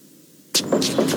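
Knocking at a door: a few sharp, loud raps in quick succession, breaking a near-silent background.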